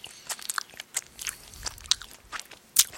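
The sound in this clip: Wet chewing of a sour, chewy grape-flavoured candy, with irregular sticky clicks and smacks, a few sharper bites standing out, and no talking.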